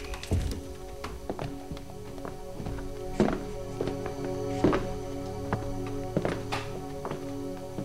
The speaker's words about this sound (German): Tür zu.